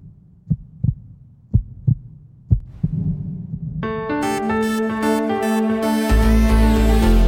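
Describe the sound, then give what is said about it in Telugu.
Three paired low heartbeat thumps in a steady lub-dub rhythm, alone at first, then sustained tonal music swells in and builds over them. “నా గుండె చప్పుడు నాకే వినిపిస్తుంది ఏంటి?”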